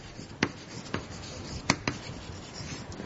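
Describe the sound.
Scratchy writing on a board during a lecture, with a few sharp, brief strokes and taps spaced irregularly over a faint, quiet background, and no talking.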